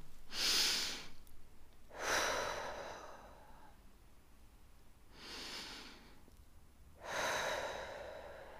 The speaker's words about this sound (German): Also lass uns noch einmal tief ein- und ausatmen Komm, wir machen es zusammen.